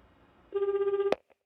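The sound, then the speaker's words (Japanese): One short ringback tone sounds on a phone call, a steady mid-pitched warbling buzz lasting about half a second, followed by a sharp click and faint taps. “それでは電話してみましょう。ピーポーパーポーパー、ぐるるるるるるるる。”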